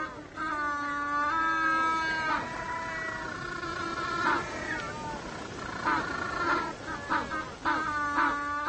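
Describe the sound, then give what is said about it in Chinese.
Braying calls of jackass penguins, a noisy colony of many overlapping, nasal, harmonic honks and drawn-out brays that keep up loudly and continuously. “这些闹哄哄的家伙又被称为公驴企鹅。鸣叫是他们进行交流、识别配偶以及求偶的重要手段。”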